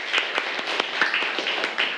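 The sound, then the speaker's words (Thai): Classroom students clap for their classmates, a dense, steady patter of many hands at moderate loudness with no talk over it. “โอเคปรบมือเพื่อนหน่อยค่ะ”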